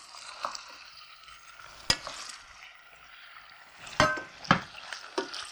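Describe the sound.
Food browns in a frying pan with a soft, steady sizzle, broken by a few sharp clinks and scrapes from stirring.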